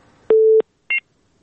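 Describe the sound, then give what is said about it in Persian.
Phone line tones sound after a caller's call drops during a phone-in: a steady low tone lasts about a third of a second, then after a short gap comes one brief, higher beep. “متاسفانه تماس رفیع الله از تگاب قطع شد”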